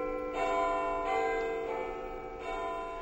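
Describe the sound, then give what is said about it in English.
A doorbell plays its preloaded chime sample while held up to a microphone: four soft, bell-like tones struck one after another, each ringing on and overlapping the next at a fairly quiet level. “Now, you're playing that from the doorbell. That is the doorbell. That's a preloaded sample that comes on the doorbell.”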